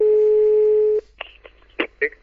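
A call is placed on a telephone: a steady dial tone holds for about a second, then stops, and a few short, separate dialing beeps follow.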